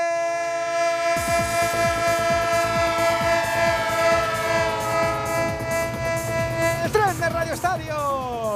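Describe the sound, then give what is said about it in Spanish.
Train sound effect of a train starting off: a loud, sustained horn chord over rhythmic chugging that begins after about a second, with the horn tones bending near the end. “El tren de Onda Cero, el tren que sigue arrancando y disfrutando de esta jornada intersemanal”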